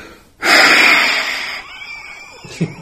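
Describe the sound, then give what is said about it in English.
One long, forceful exhalation, like a lung function blowing test at a doctor's office: a loud breathy rush that starts abruptly, holds for about a second, then tapers off gradually. “I don't know how many of you have done the blowing test at the doctor's office where you go,”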